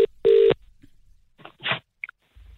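Telephone keypad tones as a number is dialed: a few electronic beeps, one long, loud and steady, followed by fainter, scattered clicks and blips.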